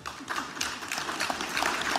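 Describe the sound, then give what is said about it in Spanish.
Lukewarm applause from a political gathering's crowd: a thin, steady patter of clapping that stays at an even, moderate level for about two seconds without building or swelling. “Tibio los aplausos.”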